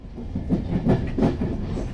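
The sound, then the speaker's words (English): Steady rumble of an express train running on rails out of Dublin on a rainy afternoon, a low continuous roar with a faint, regular clickety-clack of wheels over rail joints. “On a typically rainy Irish afternoon, I boarded an express train at Ireland's capital, Dublin.”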